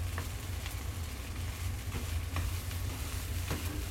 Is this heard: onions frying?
yes